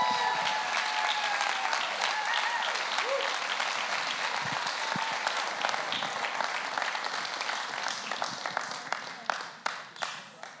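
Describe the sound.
Applause from an audience at a Christian gathering in Salt Lake City welcomes a speaker to the stage. The clapping is dense and sustained, then thins into scattered individual claps toward the end.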